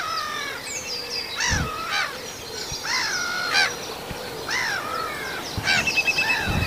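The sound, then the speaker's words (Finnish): A black-headed gull calls as it flies over, giving a series of harsh, rasping, arched cries at irregular intervals. The cries are moderately loud above a faint, steady background, with no voices. “Mutta nyt menee naurulokki tässä yli.”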